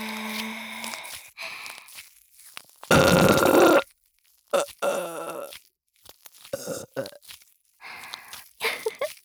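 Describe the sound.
A loud, raspy burp lasting about a second, standing out between stretches of quieter talking.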